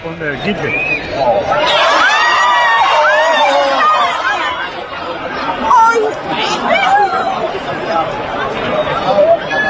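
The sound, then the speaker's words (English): A crowd at a bullfight erupts in overlapping high-pitched cries, gasps and loud chatter. The reaction swells after the first seconds and stays loud and agitated throughout, with many voices shouting at once. “Yeah, it was somebody in the crowd. It's crowd video. Here it is if you want to hear it.”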